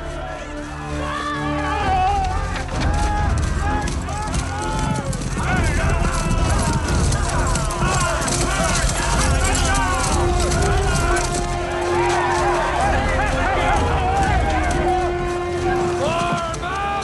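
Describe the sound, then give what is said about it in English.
An army runs through a forest: dense trampling and hoofbeats mixed with many shouting voices and occasional whinnies, loud and continuous throughout. “Bowen's army runs through the forest.”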